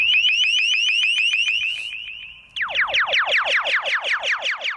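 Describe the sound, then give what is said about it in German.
A directional loudspeaker sound cannon blares a loud, piercing car-alarm-like noise. It starts as a rapid train of high pulsed tones, then switches abruptly to many fast, repeated downward-sweeping wails, with no voices. “Ein Geräusch wie bei einer Autoalarmanlage, allerdings so laut wie ein Düsenflugzeug in 30 Metern Entfernung. Einige Male kam diese Schallkanone schon zum Einsatz.”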